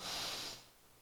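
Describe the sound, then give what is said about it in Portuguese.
A single deep breath during a guided breathing exercise, heard as a soft airy hiss that holds for about half a second and then tapers away, with no talking. “Vamos respirar? Vamos lá?”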